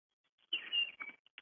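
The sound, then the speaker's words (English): A bird chirps outside a window in a few quick, high, bright bursts, clear against near silence, with no voices. “I hear a bird in the background out your window.”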